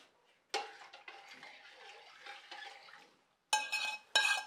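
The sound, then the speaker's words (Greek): A spoon stirs and scrapes in a pan of heating clarified butter in a home kitchen, with soft, uneven scraping strokes at low volume, ending in two louder metallic clatters. “Και ανακατεύουμε τώρα πάλι να ξαναπάρει η θερμοκρασία.”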